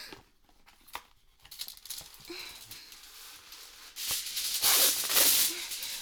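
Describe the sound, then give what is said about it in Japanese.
Aluminium foil being spread out underneath as a drip liner: a few faint clicks and light handling sounds at first, then a loud, bright crinkling rustle of foil near the end. “アルミホイル下に敷いて、もしなんか出ちゃったらここにピタピタって落ちるように”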